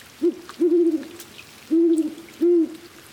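Mexican spotted owl hooting in a forest in Rocky Mountain National Park, Colorado: four low, steady hoots, the first short and the rest longer, spaced unevenly and clear against quiet surroundings.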